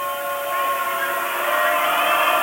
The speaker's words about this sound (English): Gets the whistle.